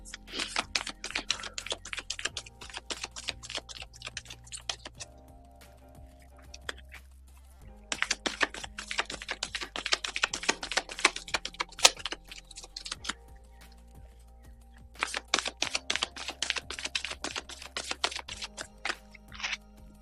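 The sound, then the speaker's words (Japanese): Playing cards are shuffled for a card reading. Three long bursts of rapid, crisp clicking riffles are separated by short pauses, all fairly faint. “それではね、今日のカードリーディングを行っていきます。カードシャッフルいたします。少々お待ちください。”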